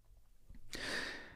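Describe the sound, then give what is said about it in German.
A relaxed breath, drawn in through the nose and let out through the mouth, ends in a soft airy exhale that rises partway through and gently fades. “Einmal noch, weil es so schön ist. Ich atme durch die Nase ein und durch den Mund aus.”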